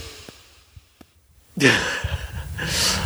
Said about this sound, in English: just say, deep breathe when you wake up. Through your nose. Like this.